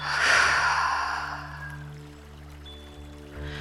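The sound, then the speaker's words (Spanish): A slow, long exhale during a guided relaxation breathing exercise, loud at first and trailing off gradually over a soft, steady tonal drone. “Exhala. Una vez más. Inhala y exhala.”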